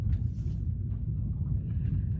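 Car interior rumble recorded while driving very slowly away from a yoga ashram, a steady low road and engine drone with faint, higher noises drifting over it.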